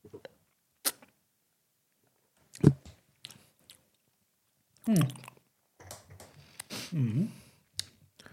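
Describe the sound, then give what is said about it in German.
Sipping an iced-coffee-style drink through a straw: a few soft wet clicks and squishy mouth sounds, then a longer stretch of noisy slurping near the end, all fairly quiet. “Ich nehme jetzt mal einen Schluck aus dem Strohhalm.”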